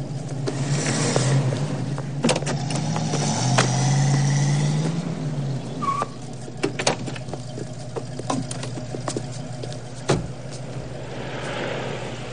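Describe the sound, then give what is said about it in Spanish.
Camper van engine as the vehicle repeatedly brakes and starts off again, a steady motor hum with shifting engine tone, scattered knocks and clicks, and a brief squeak partway through. “La caravana frena, pero vuelve a arrancar y a frenar varias veces hasta que Red sale.”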